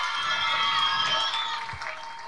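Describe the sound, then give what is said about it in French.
Crowd applause for a performer who did her piece by heart. A thick, continuous wash of clapping, mixed with some tonal sounds, stays fairly loud and then eases slightly toward the end. “Donc, double applaudissement pour toi.”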